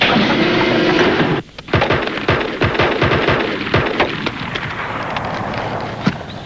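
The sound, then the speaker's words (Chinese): Gunfire in a police drama scene, a loud sustained burst cutting off abruptly, then a rapid series of sharp cracking shots of uneven spacing over a rumbling background, gradually thinning out. “你们俩干什么？一个不开枪，一个对天开枪。”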